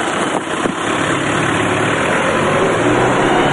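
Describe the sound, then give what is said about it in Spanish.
A taxi engine running as the car drives off, a steady, loud rumble with broad noise that holds constant throughout without a clear change in pitch. “se marcha en taxi.”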